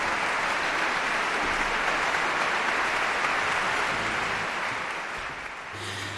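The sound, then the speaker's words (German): Audience applause after an orchestral concert in Lugano, following a Ravel work, as the conductor has musicians, especially the wind players, stand. Dense, steady clapping with no break, softening slightly toward the end. “Applaus. Der junge Dirigent lässt einzelne Musikerinnen und Musiker des Orchesters auch aufstehen, besonders die Bläserinnen und Bläser, die in Ravels Partitur ja einiges zu tun gehabt haben.”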